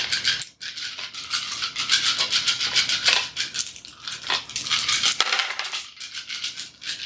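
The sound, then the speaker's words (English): Six dice rolled for an opposed test in a tabletop role-playing game clatter and rattle continuously for several seconds, a busy, bright tumbling with many small knocks that dips briefly near the start before carrying on. “You're rolling six dice.”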